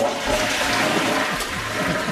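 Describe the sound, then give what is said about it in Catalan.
A toilet flushes, its chain-operated cistern emptying in one steady rush of water that lasts about two seconds. “Però atenció en els usos quotidians i tècnics, perquè cadena és un dispositiu de vàter per buidar l'aigua d'un dipòsit.”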